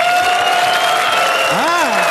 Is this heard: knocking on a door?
no